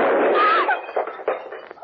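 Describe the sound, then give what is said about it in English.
A handgun goes off while held close to the body, firing a live round: one loud, sharp blast at the very start with a long rumbling tail that fades over a second or so, followed by a few faint knocks. “You were holding that gun near your body when it exploded.”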